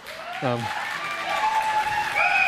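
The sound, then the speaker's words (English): Church audience clapping after announcements, a steady wash of applause that carries on through the whole stretch, with voices rising over it. “It still baffles me you clap for her announcements, not for my preaching, though.”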